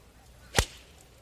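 A single crisp, sharp crack of a MacGregor golf iron striking the ball on an approach shot at the pin: one brief, loud impact against a quiet background.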